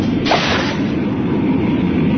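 Rockets launching: a sharp, bright whooshing blast near the start gives way to a steady, loud rushing roar that holds to the end.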